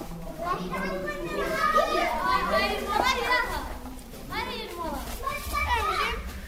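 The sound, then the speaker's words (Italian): Children playing and shouting in the stone alleys of a small village. High, overlapping young voices chatter and call out continuously at a steady moderate level, with no single voice standing out. “Tra bambini che giocano e gridano”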